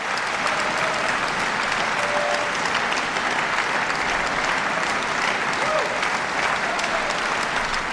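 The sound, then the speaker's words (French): A concert audience at Salle Métropole in Lausanne applauds pianist Gabriela Montero after a piece by Isaac Albéniz, sustained and evenly dense clapping that fills the whole stretch at a steady level. “Une pianiste fêtée par le public de la salle Métropole”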